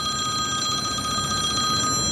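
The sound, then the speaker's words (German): A telephone ringing on a turf farm near Wünnewil in the canton of Fribourg: a continuous, loud, trilling electronic ring that holds steady throughout with no voices. “Fast gäng läutet sein Telefon.”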